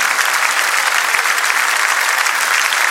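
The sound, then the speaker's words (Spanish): Strong applause from an audience at a church worship service, many hands clapping in a dense, even wash of sound that stays loud throughout with no voices over it. “Dele fuerte ese aplauso a Él.”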